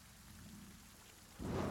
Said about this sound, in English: thunder.